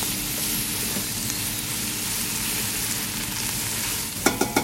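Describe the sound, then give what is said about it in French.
Asparagus and carrots sizzle steadily as they sauté in a pan toward caramelisation, a dense, even frying hiss throughout, with a few sharp stirring clacks near the end. “Là, on va tout faire revenir. Il faut vraiment que ça aille vraiment jusqu'à caramélisation.”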